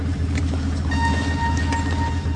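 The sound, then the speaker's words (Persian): A taxi's engine runs with a steady low rumble and hum, faint higher tones riding above it, holding an even level throughout with no voices. “عادل ساک رو میگیره و ماشین میره”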